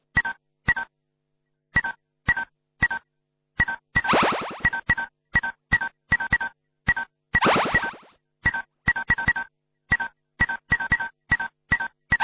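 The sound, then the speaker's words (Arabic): Telephone keypad dialing tones when calling in a game code: many short, crisp beeps in an uneven rhythm, broken twice by longer sweeping electronic warbles. “اتصل من أي محمول على 2371 أو من أي خط أرضي على 09151 وخلي تتريس على موبايلك”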